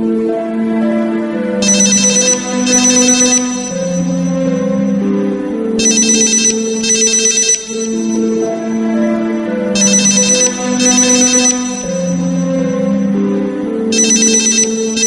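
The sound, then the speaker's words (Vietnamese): Mobile phone ringtone playing a song melody as the phone rings inside a handbag; a loud, steady musical loop with bright chiming bursts that repeat at regular intervals, with no talking. “Máy di động đặt trong túi xách của Tiểu Mạn reo chuông.”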